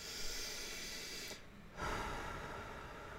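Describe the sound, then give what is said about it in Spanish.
Slow, deep breathing during a guided breathing exercise: a long, airy breath, a brief quiet pause near the middle, then another long, steady breath. “así yo también me aclimato y ustedes respiren conmigo. Vamos a tomarnos solo unos segunditos, unos 10 segunditos para respirar.”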